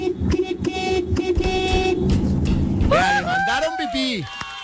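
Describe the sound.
A car horn honks in a run of short, bright toots at the start. A person then talks over quieter background sound.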